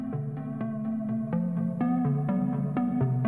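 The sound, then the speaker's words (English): A bouncy synth patch from a Juno 106 synthesizer plays a repeating pattern of short, plucky notes in a springy rhythm. Bright harmonic tones alternate between two low pitches at a steady, moderate level. “And that bouncy synth thing was a sound he was getting from that Juno.”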